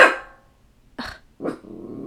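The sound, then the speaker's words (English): A dog barks a few times, short, rough barks separated by brief silences, the last one running into a sustained lower sound. “let's hear Gizmo. That's my dog Gizmo”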